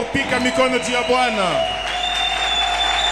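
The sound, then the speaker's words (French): A church audience standing and cheering for the Lord. A loud voice shouts over the crowd, and clapping and cheering continue beneath and after it. “Est-ce qu'on peut se tenir debout et acclamer très fort? Est-ce que tu peux acclamer pour le Seigneur?”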